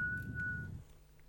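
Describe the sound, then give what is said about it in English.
A single steady whistled note held for well under a second, faint over a low rumble before it cuts off and leaves quiet background. “That's a really good whistle”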